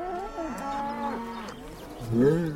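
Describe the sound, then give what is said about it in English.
A herd of cows standing on a countryside road lows loudly in long, drawn-out moos, one extended call followed by a second, stronger one. “where a herd of cows now block the road.”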